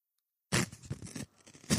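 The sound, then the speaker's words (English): Ripping open a package: a sharp tearing burst lasting under a second, then a short pause and a second brief rip. “Oh, that was a shit rip too.”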